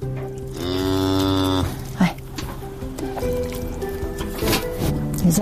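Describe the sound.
A cow lets out one long, low, drawn-out moo during early morning milking in a mountain village, followed by quieter scattered sounds of the milking.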